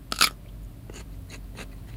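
Five-year-old boy crunching a cucumber: one sharp, crisp bite, then a few softer chewing crunches.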